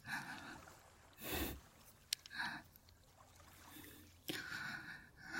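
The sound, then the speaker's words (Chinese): Rapid, heavy breathing from a person, a few hurried breathy bursts roughly a second apart over a faint hissing background, fairly quiet overall. “你现在的呼吸很急，呼吸频率是一秒。”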